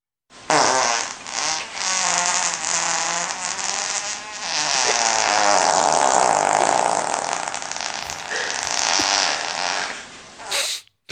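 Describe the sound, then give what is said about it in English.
Fart sound played as a guessing clip, a long, loud, raspy and buzzing sputter lasting about ten seconds, with a few dips and shifts in tone and no talk over it. “I've got another fart for you.”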